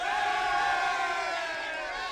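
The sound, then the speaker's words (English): A large crowd cheers and shouts for a king's coronation, a loud, sustained roar of many voices that holds steady and eases slightly toward the end. “Presenting your noble king, Rupert II. Large cheer.”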